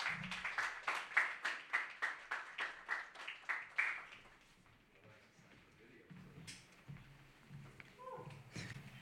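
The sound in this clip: Audience applause for a poet at an open mic: steady, rhythmic clapping for about four seconds that then dies away into quieter, scattered sounds.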